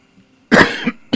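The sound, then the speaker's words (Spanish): A person coughing: a loud, harsh burst with a smaller second cough close behind it, then another short cough after a brief pause. “A veces pasa en la radio, viste, que uno tose sin darse cuenta.”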